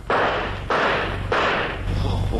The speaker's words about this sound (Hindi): fire